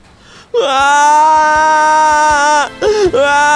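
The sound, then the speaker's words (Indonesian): A girl cries loudly in a long, high, strained wail that holds for about two seconds. It breaks off into a couple of shorter, choked sobs. “Akan tetapi, Aning justru menangis semakin kencang.”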